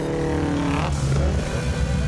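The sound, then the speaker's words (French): Subaru cars revving their engines: a loud, continuous, throaty roar with a layered harmonic drone that holds steady throughout. “Faites rugir vos Subaru, les gars!”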